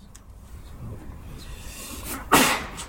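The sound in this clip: A single sneeze bursts out near the end, sudden and fairly loud after a stretch of quiet background.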